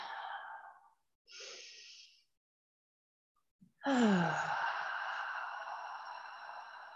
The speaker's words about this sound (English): I invite you to breathe. Take in a breath.